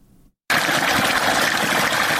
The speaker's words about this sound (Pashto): په ویالو او نهرونو کې د روانو اوبو غاک